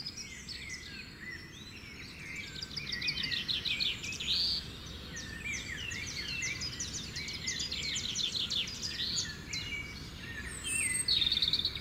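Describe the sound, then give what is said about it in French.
Birds sing at a morning open-air festival, with many bright chirps, rapid trills and high whistled phrases overlapping continuously above a low, steady background hum. “Nous continuons donc à entrer dans ces obades en suivant le chant des oiseaux.”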